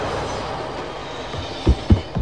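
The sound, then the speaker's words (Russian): A train emerging from a tunnel gives a steady broad rumble that stays level, then a few sharp, heavy clatters near the end. “Из туннеля выезжает поезд, въезжает в купальни. Поезд?”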